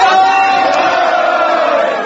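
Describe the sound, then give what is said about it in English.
Loud cheering from a crowd at a Democratic Party of Japan election headquarters on election night, as a landslide win over the Liberal Democratic Party was forecast; a dense, steady roar of voices and shouts holds throughout. “Cheers of delight went up at the headquarters of candidates for the Democratic Party of Japan as broadcasters predicted a landslide victory over the Liberal Democratic Party.”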